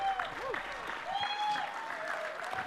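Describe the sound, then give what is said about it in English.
A church audience applauds to welcome its location pastor, with steady, even clapping throughout and a voice speaking over it. “Come on, put your hands together and welcome your LP.”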